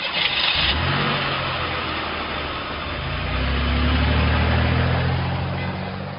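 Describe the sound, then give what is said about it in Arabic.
A car engine runs with a steady mid-pitched rumble, then swells into a loud, sustained rev before easing slightly, with no talk over it. “يلا شغل السيارة واطلع”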